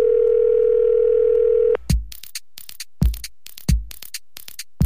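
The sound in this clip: A telephone dial tone hums steadily and loudly for nearly two seconds, then cuts off abruptly. A few sharp clicks and brief bursts follow as the number is dialed.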